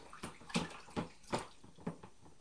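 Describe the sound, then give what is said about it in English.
Water splashes in a bathtub as toy ducks are played with: several soft, separate splashes and sloshes in an uneven rhythm, quiet overall, with no voices. “Big splash. Big splash.”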